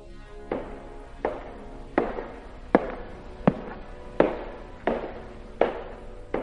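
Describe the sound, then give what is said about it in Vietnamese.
Footsteps outside: nine evenly spaced, sharp thuds at a slow walking pace, growing louder over the first several steps and then holding steady, with no talk. “Tiếng bước chân ở bên ngoài lại tiếp tục vang lên ngày một lớn dần.”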